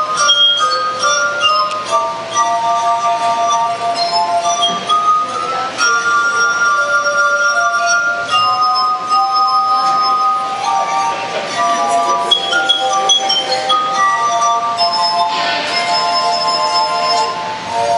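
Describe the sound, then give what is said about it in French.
A glass harmonica, made of stemmed glasses fixed on a wooden frame and played with wet fingers, plays a flowing classical melody. Its sustained, ringing pure tones stay loud and steady throughout. “il s'est fabriqué un orgue de cristal avec des verres à pied fixés sur une structure en bois et il joue du Mozart dessus, aux doigts mouillés.”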